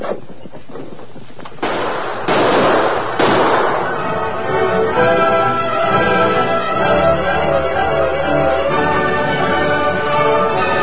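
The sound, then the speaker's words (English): Rifle gunfire in a radio drama shootout: a rapid string of sharp cracks, then several heavier booming shots, after which a dense, steady din carries on, loud throughout. “Keep up that gunfire.”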